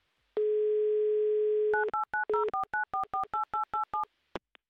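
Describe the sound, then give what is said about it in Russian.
Telephone dialing for an outgoing call: a steady dial-tone hum holds for over a second, then a quick, even run of two-pitched keypad beeps follows, ending in a couple of faint clicks, with no voices. “Класс, гудки есть.”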